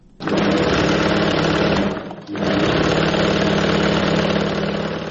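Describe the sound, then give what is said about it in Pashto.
A tailor's sewing machine in Kabul's Qala-e-Zaman Khan area runs in a loud, steady whirring drone, stopping once briefly midway before starting again. “د مشق الله د خیاطۍ د ماشین غږ دی.”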